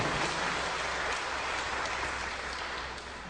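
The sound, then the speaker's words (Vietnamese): An audience applauds at a talk, a dense, even wash of clapping that holds steady and eases off slightly toward the end, with no voices over it. “Quý vị vỗ tay cho chính mình nào.”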